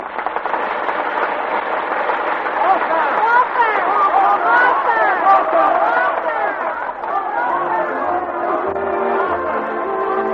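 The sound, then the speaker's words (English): A theater audience on opening night clamors on its feet after the curtain falls, a sustained hubbub of voices and cheering with band music playing underneath. “The curtain has fallen in the Hyperion Theater. The exit march is playing, but the audience will not leave. On their feet, crowded in the aisles, New York's first nighters are clamoring for the author”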